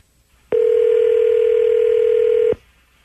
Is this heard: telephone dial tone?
yes